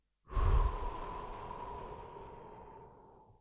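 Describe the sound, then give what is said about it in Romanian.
A deep breath, heard as one long, airy rush that starts suddenly, is loud at first and then slowly fades over about three seconds, with no talking. “să inspir adânc aer în piept, să-l expir”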